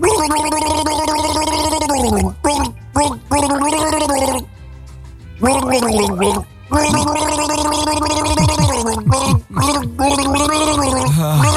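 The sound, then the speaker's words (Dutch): A person gargles loudly in long voiced bursts, the wet gurgling carrying a wavering pitch. A few short breaks separate the bursts. “er worden natuurlijk ook mensen misselijk van het gegorgel”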